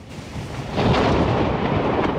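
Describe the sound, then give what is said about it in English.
Thunder rumbles during an overnight thunderstorm sweeping across southern and western England, a broad, low roll that swells after a quieter start and stays loud and sustained to the end. “First came the storms, sweeping across the south and west of England overnight, bringing 29,000 lightning strikes, according to the Met Office.”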